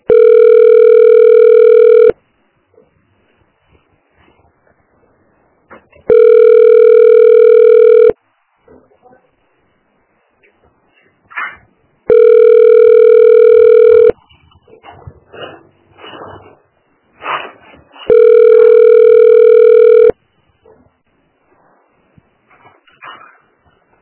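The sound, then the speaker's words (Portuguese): Telephone ringback tone plays while a caller waits on a call to a health unit: four long, even tones of about two seconds each, separated by gaps of roughly four seconds that hold only faint background noises. “Você ligou para Unidade de Saúde Saveiro. Aguarde para ser atendido.”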